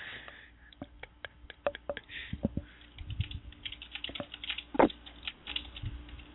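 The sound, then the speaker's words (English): Typing on a computer keyboard: many quick, irregular key clicks in uneven runs, soft and without talk. “Oh, I can only type so fast. Yeah, hang on. Let me look this up.”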